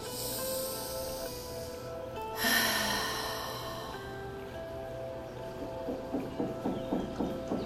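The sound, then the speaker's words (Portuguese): A single breathy exhale through a half-open mouth during a guided relaxation exercise: a soft rush of air rises suddenly, then thins out over a couple of seconds against a quiet, steady background. “E com a boca entreaberta, permita que esse ar saia como uma sensação de alívio.”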